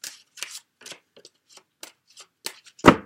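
A card deck being shuffled and a card drawn for a tarot-style reading: a series of short, crisp riffling snaps, mostly soft, ending with one louder, fuller flick.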